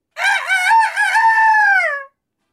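A person imitating a rooster crowing: one drawn-out, rooster-like call of about two seconds, loud and alone, with a steady harmonic tone that wavers early and then trails off.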